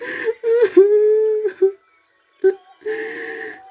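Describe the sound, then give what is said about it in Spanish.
Hungry children crying in a tale, with whimpering, wavering wails: a long tonal cry, then after a pause two more shorter cries, with no other sound behind them. “Los niños, que no podían dormir de hambre, oyeron toda la conversación y comenzaron a llorar.”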